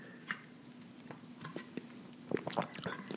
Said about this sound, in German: Jetzt muss ich mal gerade einen kleinen Schluck trinken.